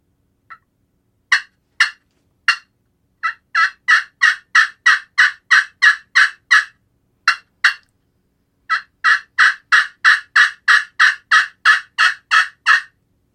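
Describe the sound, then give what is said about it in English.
Raspy, loud yelps from an aluminum-surface friction turkey call: a few spaced single notes, then a long run of evenly paced rapid yelps, a short pause and two notes, then another steady rapid series. “As you can tell, that the aluminum surface is a lot raspier and louder than the regular slate call.”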